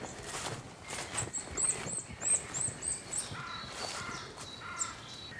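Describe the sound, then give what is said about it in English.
Wood warbler singing in woodland in the Brecon Beacons, a faint series of high, thin repeated notes with a few other soft bird calls. “Lovely wood warbler. That was worth coming all this way for.”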